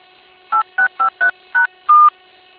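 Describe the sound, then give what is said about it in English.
Telephone keypad tones dial a conference passcode: six crisp electronic beeps in quick, slightly uneven succession, the last held noticeably longer than the rest. “If you have a passcode, please dial that followed by the pound sign.”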